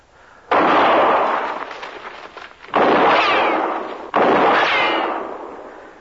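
Gunshots ring out in a shootout in brushy country: three loud, sharp blasts spaced a second or two apart, each followed by a long, slowly fading tail.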